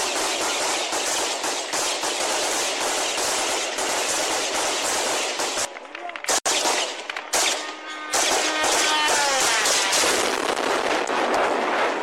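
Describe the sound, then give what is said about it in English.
Ground forces fire rapid gunshots at a drone in Kyiv, a dense, loud, continuous crackle of shots that breaks off briefly mid-clip and then resumes just as intensely. “Gunshots as a drone is shot down by ground forces.”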